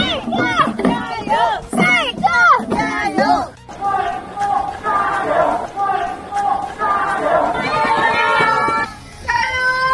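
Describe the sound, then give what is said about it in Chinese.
A roadside crowd cheers on runners in a race, with loud shouted encouragement that comes in short rhythmic bursts and then becomes a continuous mass of excited voices and chatter. “我突然想起和小朋友的那个击掌，我突然想起路边的大家给我真挚的加油声。”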